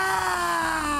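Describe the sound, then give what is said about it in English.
A voice imitates all of creation groaning in birth pains. It is one loud, sustained, strained cry held at a steady pitch for the whole clip, with no other sounds. “The Bible says the whole earth, all of creation, groans. It is in birth pains. It sounds like this.”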